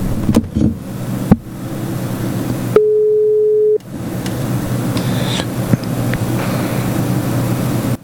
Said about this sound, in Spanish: vamos a hacer una llamadita que hay un personaje por ahí muy especial. A ver si lo tenemos a tono. A tono está.